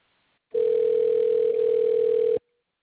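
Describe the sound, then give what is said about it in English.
A telephone tone plays while a call is transferred to a store's appliances department: one loud, steady, mid-pitched tone of about two seconds, starting and stopping abruptly, with faint hiss around it. “I'll connect you with someone in the appliances department who can help.”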